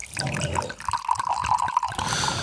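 A drink poured from a bottle into a glass, a short gurgling trickle of liquid with a steady ringing tone running through it, heard alone without talk.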